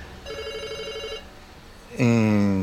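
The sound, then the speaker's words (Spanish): A telephone rings with an incoming call: one warbling electronic ring burst lasting about a second, then, after a short pause, a louder harmonic tone. “Tenemos una llamadita, a ver. Tenemos una llamada, a ver.”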